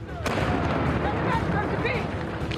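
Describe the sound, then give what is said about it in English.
Cannons fire in battle, loaded and touched off with lit matches from high ground at the edge of a town. A sharp blast gives way to loud, continuous rumbling roar, with voices mixed in. “On the high ground at the edge of town, Knox has his guns loaded and ready. He nods to his men, who have their matches lit. Let's wake up the rest of the bastards! Give fire!”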